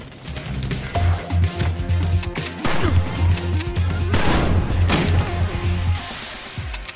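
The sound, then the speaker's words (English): Shotgun blasts in a video game, many loud booming shots fired in a rapid series, mixed with heavy thuds and crashing impacts. “Hold up, no more ammo? Yeah, you can't reload the shotgun anymore since version 2 came out.”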